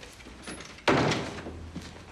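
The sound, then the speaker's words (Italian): A door closes with a single solid thud that fades quickly. Only faint background sound comes before and after it. “Vieni, vieni, chiudi la porta.”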